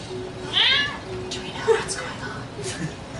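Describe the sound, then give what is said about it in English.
A talkative pet cat named Luna lets out a short, rising meow while people talk nearby. “As you can see, we have our own cat that we keep with us. I can see that. She seems very talkative.”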